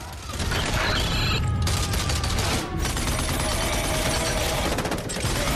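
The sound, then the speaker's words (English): Gunfire from a horde of enemies in a vast factory during a film scene: dense, continuous rattling bursts mixed with mechanical clatter. It stays loud throughout, with no voices. “In a gigantic factory space, a horde of enemy fire back.”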